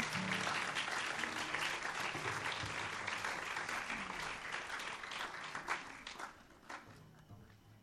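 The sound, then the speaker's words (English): Audience applause at a live song performance, hands clapping in a dense, steady wash that holds loud for several seconds, then thins and fades toward the end into a few scattered individual claps. “Some just clap their hands or paws or anything they got now.”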